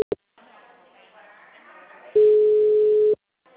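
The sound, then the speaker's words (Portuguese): A telephone busy tone sounds after a dropped call, one steady mid-pitched beep about a second long, following a couple of clicks and a faint, muffled voice on the line. “Ele tá mandando mensagem. Caiu, tava ruim a ligação. Caiu.”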